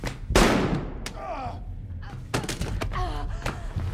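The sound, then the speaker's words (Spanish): A gunshot in a tense film scene: one loud, sharp blast near the start with a heavy low thump, followed by voices talking and a couple of shorter sharp knocks. “¡Ahora me disparas!”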